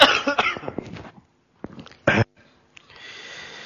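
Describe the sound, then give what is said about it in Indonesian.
Coughing during a religious lecture: a few short, rough bursts, then a louder isolated cough after a pause, followed by low hiss. “Ntar anda batuk dulu.”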